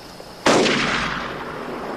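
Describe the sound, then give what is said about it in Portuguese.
Gunfire in a video game: a sudden loud, sharp blast bursts in and then leaves a long, broad rumbling decay that fades slowly over the following second and a half. “Não tá mais atirando na gente. Tá atirando pro outro lado.”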